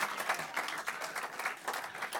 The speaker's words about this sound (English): Well, if you're going to clap, you might as well not make it feeble. Go ahead. Come on.